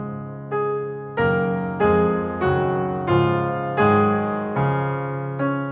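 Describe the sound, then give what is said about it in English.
A piano plays accompaniment figuration from a song cycle: eight evenly paced chords in the low and middle register. Each chord is struck firmly and fades before the next, and no voice is heard. “You can hear the piano writing changes, and it sounds like this.”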